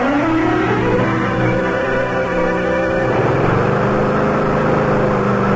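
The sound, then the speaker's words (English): A lawn mower engine runs without pause, a loud, continuous motor drone whose pitch wavers slightly partway through. “They're just mowing the lawn”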